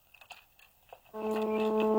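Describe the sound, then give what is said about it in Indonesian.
A telephone line being picked up for a call: after a near-silent second with faint scattered noises, a loud, steady electronic tone with a rapid pulsing pattern starts abruptly and holds to the end. “Kita angkat lagi teleponnya.”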